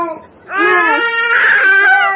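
A young boy crying: a short sob, a brief pause, then a loud, sustained high-pitched wail with wavering pitch that carries to the end.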